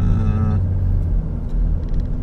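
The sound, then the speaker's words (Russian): A car passes on the right with a steady low engine rumble and drone, a brighter harmonic hum fading after the first half second while the deep rumble continues. “Ох ты, какая машинка справа, смотри.”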